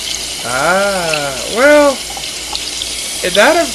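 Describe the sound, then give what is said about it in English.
Water runs from a sink tap as a steady hiss, with voices speaking over it in a few short bursts. “Oh, no, that's the I think sink. It's water running. That's water. That's water running.”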